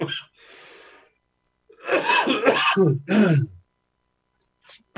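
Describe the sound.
Throat clearing and rough coughing from someone with a tickle in the throat: a short harsh burst, a breathy exhale, then a longer raspy clearing in the middle, followed by silence and a couple of faint brief sounds near the end.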